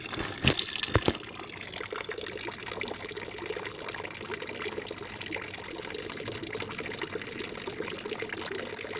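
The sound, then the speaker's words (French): Water gushes steadily from a public drinking fountain beside the town hall in Clermont-Ferrand, a continuous hissing flow with two sharp knocks near the start. “C'est la fontaine d'eau potable à côté de la mairie de Clermont-Ferrand”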